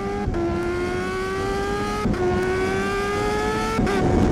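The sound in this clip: A car engine accelerates hard with a loud, steady, tonal drone that climbs in pitch, drops briefly at each of three gear changes, and then climbs again.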